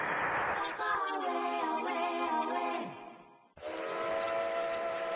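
A train whistle sounds aboard the Al Andalus luxury train on its tour through Andalusia: a loud, sustained harmonic blast whose pitch sags at the end, a brief break, then a second long steady blast.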